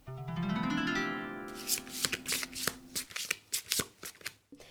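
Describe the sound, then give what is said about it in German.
Tarot cards handled as the first card is turned over: a series of crisp, papery flicks and slaps in an uneven rhythm, following a sustained tonal sound at the start. “dann würde ich gleich schon mal die erste Karte umdrehen.”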